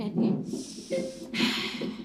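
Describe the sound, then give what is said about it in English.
A few deep, heavy breaths are drawn and released in quick succession, rough and snort-like, fairly faint. “Keep going, keep going. Great, you're doing great. Take a deep breath.”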